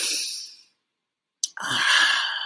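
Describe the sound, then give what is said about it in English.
Deep breathing during a guided relaxation exercise. One long breath fades out, then comes a short silence and a sharp click, followed by another long, airy breath. No one speaks. “And we always do that beginning with a breath. Come on, breathe with me.”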